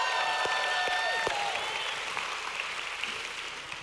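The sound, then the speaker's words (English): Applause and cheering from a church audience: dense, loud clapping with a few high whoops near the start, continuing steadily and easing slightly toward the end. “If you love Jesus, make a little bit of noise.”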